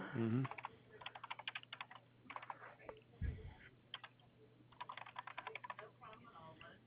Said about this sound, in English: Just doesn't allow me to copy paste any information from your profile, so I'm having to type it all into this form here.